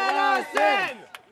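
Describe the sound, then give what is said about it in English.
Protesters chanting and shouting outside a private art museum in a former Masonic temple, with loud, strained voices in rising and falling bursts. Two main phrases are followed by a shorter shout. “That's the sound of protests this past Friday morning outside the Marciano Art Foundation”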